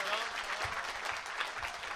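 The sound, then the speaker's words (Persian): An audience clapping: a dense, steady patter of many hands, even in level from start to finish. “یه کف جانانه بزن”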